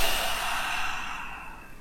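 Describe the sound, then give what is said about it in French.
One long, deep breath from a person, a soft airy rush that starts strongest and slowly fades away. “Respirez encore à nouveau”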